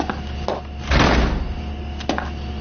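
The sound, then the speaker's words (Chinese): A door swings shut with one broad, solid thud, surrounded by a few light clicks from the latch and handle. “门关上。 关门。”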